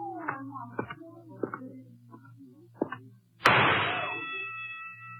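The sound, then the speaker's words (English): A single sharp gunshot rings out at a carnival shooting gallery after brief talk, its loud crack trailing off into a lingering metallic ring. “Nice shot. Thank you. I seldom miss.”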